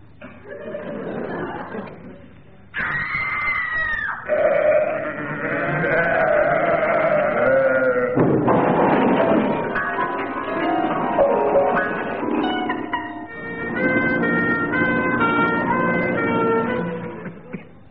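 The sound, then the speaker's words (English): A comic sound-effect sequence stands for a Vestal Virgin tripping over a sacrificial sheep. Loud, wavering bleat-like cries and siren-like wails follow one another in several shifting segments, with no talk. “That was a Vestal Virgin tripping over a sacrificial sheep.”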